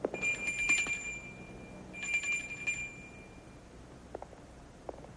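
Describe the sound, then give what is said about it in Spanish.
A small hand bell rung by a cardinal at the doors of the Sistine Chapel: two faint bursts of rapid, bright tinkling separated by a pause, over a quiet background with a few soft knocks. “Por fin, un cardenal abre las puertas de la capilla Sistina y toca una campanilla.”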